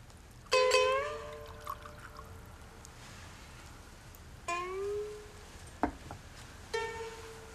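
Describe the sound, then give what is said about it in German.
Rice wine poured into a small bowl, coming as a few short pours, each with a clear, ringing tone and quiet gaps between them. No talk. “Sie füllt ein Schälchen mit Reiswein und reicht es Takio”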